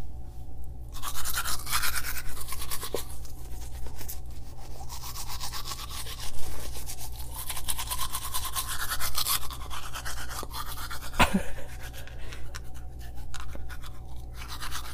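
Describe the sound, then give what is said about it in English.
Teeth being brushed with a toothbrush: steady, rapid bristle scrubbing that runs almost without a break through the whole clip at an even, moderate loudness. “Audio can do a lot for the soul, and I'm going to exhibit this while I brush my teeth. The sound of it is something that you've probably never experienced.”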